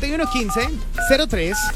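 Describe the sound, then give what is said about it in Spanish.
Telephone touch-tone dialing beeps, a few short keypad tones sounding while a voice talks over them. “Ya estamos marcando.”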